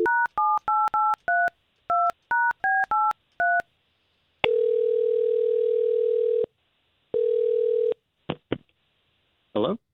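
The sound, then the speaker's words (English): Touch-tone telephone dialing as a call is placed: a fast run of about a dozen short keypad beeps, then two long, steady ringing tones separated by a pause, ending in a few faint clicks. “I'm just going to try to get you on the line with James”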